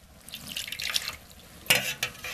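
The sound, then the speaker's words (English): Running water splashes as hands are washed before communion, a steady wash of water with a couple of louder splashes near the end of the short stretch. “I want you to get your communion elements ready with us. Wash your hands.”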